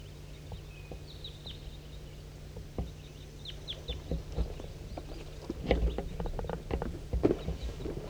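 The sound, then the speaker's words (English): A big flock of birds in flight gives many faint, high chirps over a flurry of soft fluttering clicks, growing busier and louder in the second half. “Start recording a big flock in flight.”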